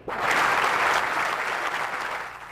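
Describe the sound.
Steady, dense applause from a crowd welcoming former Vice President Al Gore at Scripps Institution of Oceanography as he receives the first Roger Revelle Prize, loud and unbroken throughout.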